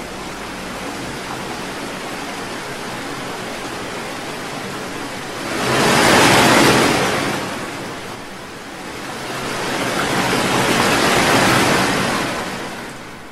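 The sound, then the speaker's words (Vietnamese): A roaring wall of water rushes in as a sound effect: a broad, hissing roar that swells to a loud peak midway, dips, then surges again in a second, longer swell. “Chỉ trong nháy mắt, bức tường nước đã ập đến trước mặt họ. Bóng tối bỗng nhiên biến thành một vật thể khổng lồ, có thể nuốt chửng tất cả mọi thứ, phát ra những tiếng rít kinh hồn”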